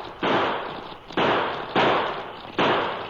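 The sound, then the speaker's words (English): Gunshots from a short-barreled pocket revolver fired in quick succession: four loud, sharp cracks, each trailing into a broad, hissing decay before the next. “the cracksman let loose of the handbar and pulled a pocket model revolver. In quick succession, he triggered out six shots.”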